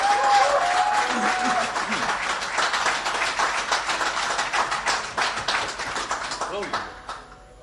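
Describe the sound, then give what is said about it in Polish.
Audience applause at a blues concert event, a dense, steady patter of many hands clapping that carries on for several seconds before thinning out and dying away at the end. “Brawa dla autora”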